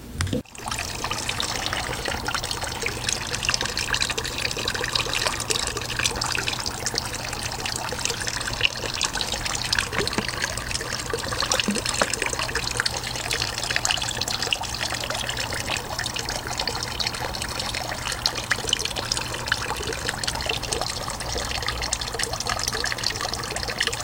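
Water trickles and burbles steadily in a pond as an aquarium log is placed into it. A brief onset is followed by a dense, even, continuous dribbling with no voices.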